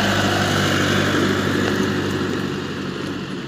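A mowing machine runs outside with a loud, continuous motor drone and rough, broad mechanical noise. The level stays nearly even and eases slightly toward the end, with no voices.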